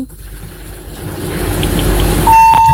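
A steady electronic beep of a disconnected phone call sounds briefly near the end, one level tone held under a constant noisy rumble.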